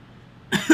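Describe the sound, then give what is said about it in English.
A brief cough in two quick bursts after a moment of near silence, the second burst slightly sharper than the first. “I'm already coughing.”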